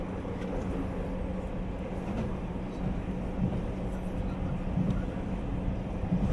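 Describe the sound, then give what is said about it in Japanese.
An express train runs toward its terminal station at Sapporo, giving a steady, low rumbling drone with faint rattles. The noise stays level throughout, with no clear breaks. “まもなく終着札幌です。3番線到着、折り口は右側です。どなた様も支度の上お待ちください。今日は急行ハムナスご利用くださいましてありがとうございました。”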